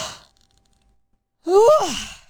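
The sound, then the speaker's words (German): A person yawns, someone who cannot stop yawning: a brief breathy exhale at the start, a pause, then one long voiced yawn whose pitch rises and then falls away. “Und gähnen wir mal anständig, richtig drauf los. Ich weiß nicht, was los ist heute mit mir, aber ich muss pausenlos gähnen.”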